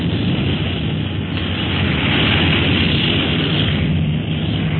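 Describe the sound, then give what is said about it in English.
An airplane landing produces a loud, continuous rumbling roar, a dense, muffled wash of engine and wind noise that swells slightly in the middle and stays steady to the end. “Uh-oh, we're landing.”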